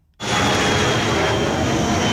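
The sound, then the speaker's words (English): Loud, steady roar of an airplane flying low overhead near the end of an airport runway in Ahmedabad. The roar cuts in abruptly and then holds constant without fading. “Planes that fly above are a reminder of how close this crash site is from the airport.”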